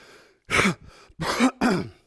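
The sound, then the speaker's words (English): Three harsh, rasping coughs from a lingering, unpleasant cough, the first alone and the last two close together, each short and loud with a throat-clearing edge. “Am I the only one with this strange cough? My family and I have it. I know some of y'all had it. Oh, it's awful.”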